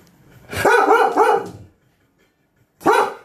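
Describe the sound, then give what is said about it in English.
A dog barks loudly at nothing outside in a few sharp, harmonic bursts, two close together and another after a short silence, with no voices. “I hate my dog. Stop! There's no one out there!”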